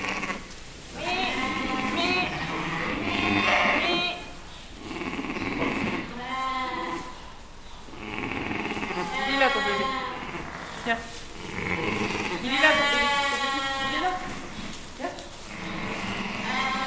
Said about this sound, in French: La bête n'a jamais mis bas. Et regarde comme elle kiffe son agneau.